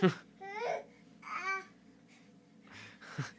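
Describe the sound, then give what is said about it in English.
A baby boy fussing and babbling as he fights sleep: several short, high, warbling vocal bursts separated by brief pauses, fairly faint. “This baby is going crazy. I'm sorry about the constant noise in the background, but he's just not stopped, and I keep changing his position. He just keeps going off. He's fighting sleep is what's happening.”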